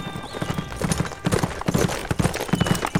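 Hooves clip-clop as cavalry horses ride off, a steady stream of overlapping hoof beats from several animals moving at a walking pace.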